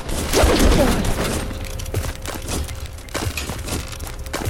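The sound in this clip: Gunfire in a video game: many sharp, irregular bangs, with a heavier burst near the start and scattered single shots after it.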